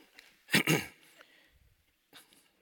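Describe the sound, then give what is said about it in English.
A voice acts out a throat clearing as a single loud, rasping burst, followed by faint breathy sounds and a brief second rough noise near the end. “What do you want, girl? And she clears her throat.”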